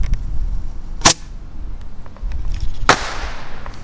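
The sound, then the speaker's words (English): Two sharp firework rocket launches from a tube. Each is a loud, abrupt crack over steady low background noise, and the second trails off in a brief hiss. “And I'm out here lighting rockets because that's a fun thing to do if you're me. Put another one in the tube here.”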